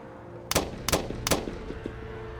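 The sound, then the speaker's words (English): Three gunshots fired from the sixth floor of a building ring out as sharp, evenly spaced cracks, each followed by a brief echoing tail and a few fainter clicks. “Texas School Book Depository, and three shots erupted from the sixth floor of the building, killing President Kennedy and severely wounding Governor Connally.”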